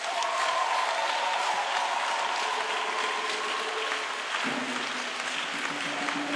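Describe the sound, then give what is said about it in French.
A church audience applauds loudly in acclaim for Father Mathieu. The dense, continuous clapping holds an even level throughout. “je demande qu'on l'acclame encore très fort.”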